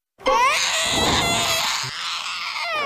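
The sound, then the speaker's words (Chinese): A baby cries in a long, loud, high-pitched wail that starts abruptly after a moment of silence and carries on with hardly a break. “哄他，你去哄他， 你哄啊！ 一次不可能完成的任务。啊！ 别哭了，我求求你，哭了我耳朵快穿了。”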